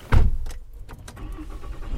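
Rental car sound while driving downstream through narrow basalt mountain slopes: a dull thump at the start, then a steady low rumble of the car at moderate level.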